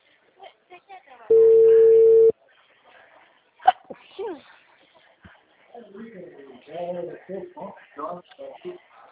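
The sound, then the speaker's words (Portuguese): A single telephone ringback tone sounds while a call is placed: a steady, mid-pitched beep about a second long. A few clicks follow, then people talk. “Tá chamando.”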